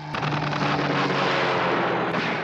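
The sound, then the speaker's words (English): Gunfire during a military attack on a coast guard station: a dense, sustained roar of blasts with many faint overlapping cracks and no clear gaps, loud and continuous throughout. “Give me my gun. Get a gun! Get the gun! Got a gun. And he fires it.”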